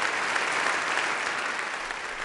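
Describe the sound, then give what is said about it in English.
Crowd in a hall cheering and applauding, a dense, steady wash of clapping and cheers that holds loud and even throughout, with no talk over it. “And when he entered the hall, all those present cheered and cheered.”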